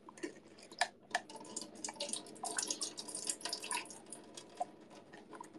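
Water patters and drips as canned beans are rinsed, a faint, irregular run of small splashes and droplet ticks with brief louder spurts and no talking.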